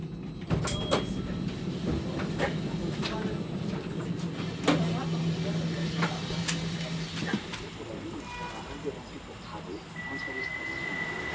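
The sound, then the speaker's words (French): Tram ride ambience: a steady rumbling rail hum with a sustained low motor tone midway, scattered knocks and clatters of doors and fittings, and a high electronic beep holding near the end. “Pour notre deuxième reportage, on prend le tram, direction le Verger Fleury.”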